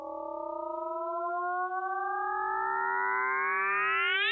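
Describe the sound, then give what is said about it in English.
Sonified gravitational waves from two black holes colliding form a smooth, whistling chirp whose layered tones glide steadily upward in pitch, growing slightly louder and ending in a quick upward sweep, with no voices. “I mean, you have two black holes colliding and it makes this whoop.”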